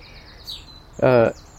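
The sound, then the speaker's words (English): A young blackbird squawks for food as it follows its parent: one short, harsh, harmonic call that stands out loudly, with thin, high chirps of other birds faintly around it. “there's a Rocky and its wee babby following it and still squawking for food, but perfectly capable of flying itself as quick as its parent.”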